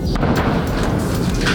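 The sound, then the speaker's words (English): Airstrikes exploding in southern Lebanon come through as a dense, continuous low rumble of blasts, loud and steady throughout the short stretch with no talk over it. “That's the sound of Israeli airstrikes hitting southern Lebanon.”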